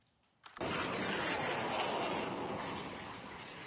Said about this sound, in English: Rockets streaking into the sky as Hamas continues its attacks on Israel.